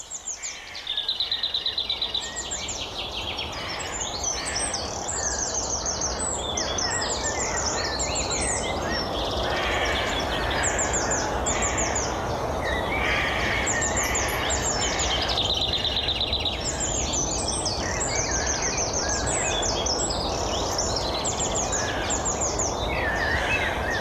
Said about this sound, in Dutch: De vogelwereld is wel wakker geworden.